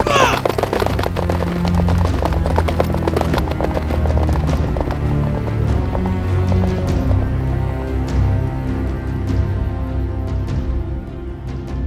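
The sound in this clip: Horses galloping off as riders set out, with a rapid, continuous run of hoofbeats that stays loud and busy throughout.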